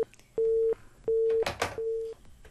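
Busy tone after a dropped phone call: steady mid-pitched beeps repeating at an even on-off rhythm, with a short burst of noise between two of the beeps.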